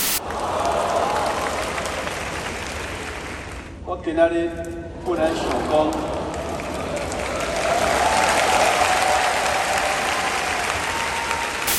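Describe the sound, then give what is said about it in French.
A crowd of about 10,000 students at National Taiwan University applauds and cheers in triumph for Nvidia founder Jensen Huang, a dense, steady roar of clapping with a voice heard partway through. “Jensen Huang, l'un des fondateurs de Nvidia, accueilli en triomphe à l'Université nationale de Taïwan il y a quelques jours, devant 10 000 étudiants chauffés à blanc.”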